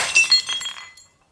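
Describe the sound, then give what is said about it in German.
A water glass dropped from trembling hands shatters in a bright, sharp crash, a few tinkling fragments following before the sound dies away to silence within about a second. “Du hast das Glas fallen lassen. Du Lügner. Du hast das Glas zerschlagen.”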